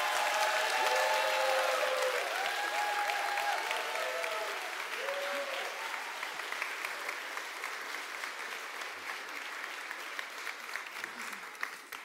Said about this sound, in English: as we do in the New Life tradition, it is not a little pitter-patter, but let us warmly welcome Kamaj, Valerie, and Joseph to the stage.